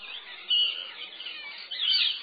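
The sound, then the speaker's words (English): Parrots call along a pathway leading up a hill, giving harsh, high-pitched chattering squawks that run continuously throughout, with two louder bursts rising out of the steady flock noise. “that's parrots.”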